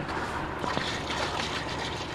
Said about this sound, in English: They were applying the treatment to Cattaraugus Creek. Go ahead and pour this one in.